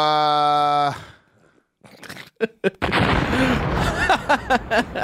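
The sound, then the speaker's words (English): Bomb explosion sound effect: a steady buzzing tone stops, then a few sharp bursts lead into a loud, sustained roar of blast noise scattered with crackling pops. “That was a bomb. I like that sound, though. Yeah, I got a lot of them here, baby boy. Bombs are powerful.”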